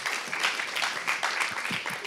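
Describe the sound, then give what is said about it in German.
Audience applause for two volunteers who came forward: a steady, dense wash of clapping that holds at an even level for the whole two seconds. “Also es sind 2 Freiwillige, die vorgekommen sind. Ihr habt auch schon für euren Mut einen Applaus bekommen.”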